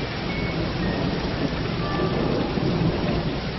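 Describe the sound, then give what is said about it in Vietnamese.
Heavy rain pours down in a steady, loud rushing hiss with a low rumble beneath it, continuous and unbroken, with no voices. “mưa đổ xuống như chút, mọi vật trở nên tối sầm lặng.”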